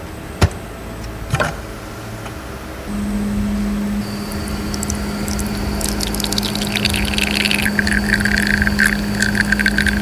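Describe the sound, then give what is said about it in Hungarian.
A coffee machine brews after its start button is pressed: a couple of sharp clicks, then a steady low pump hum begins, joined by hissing, gushing flow as the coffee pours. No voices. “És mindjárt le is folyik a kávé”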